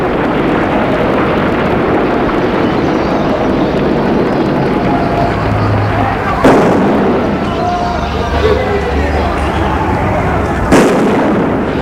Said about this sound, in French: Une explosion.